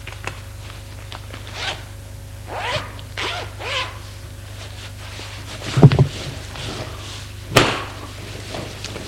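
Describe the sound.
A clothing zipper drawn as someone undresses: two quick, sharp rasping pulls over a soft, steady background rustle.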